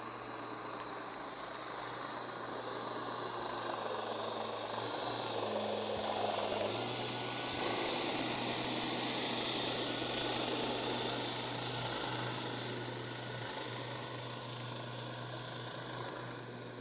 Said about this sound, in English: This was an underwater recording of snapping shrimp in a motorboat in the Mesoamerican